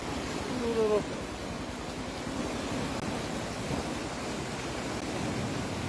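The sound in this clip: Flash flood water surging into a village community after a night of heavy rain: a constant, dense rushing roar with no break. A brief voice is heard near the start.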